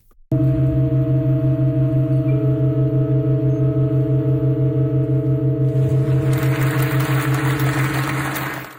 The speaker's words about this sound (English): Yesterday, the organ performed a rare chord change and went from playing 7 notes to 8.